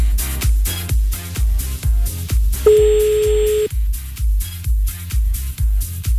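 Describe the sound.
A single telephone keypad tone, about one second long, sounds as a number is dialed to place a call. It rings out steadily over a pounding, regular music beat.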